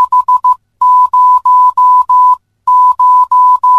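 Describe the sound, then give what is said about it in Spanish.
The number 500 is beeped in Morse code as a clean, loud, steady mid-pitched tone: five quick dots, then two groups of five long dashes, with short silent gaps between the groups. “Número 500 en el código Morse suena así.”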